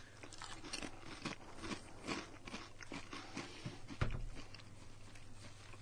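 Crunching of thick Chinese potato chips being chewed, a faint, irregular run of crisp crackles and snaps, with one sharper crunch near the end and no talking.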